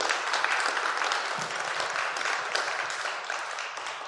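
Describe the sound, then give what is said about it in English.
An audience at Burlington Baptist Church applauds a guest speaker, a thick, steady mass of clapping hands at fairly even loudness that eases slightly toward the end. “Everybody, would you give a Burlington welcome to Tom Hunt, everybody?”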